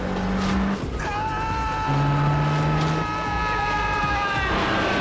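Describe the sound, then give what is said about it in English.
Cars drive forward and build up speed, and one rides up onto a curb. A steady engine drone with sustained tonal whines runs through dense, noisy background sound. “Elmo puts the car in gear and drives forward. Kane's car starts towards him. As they build up speed, Kane rides up on the curb.”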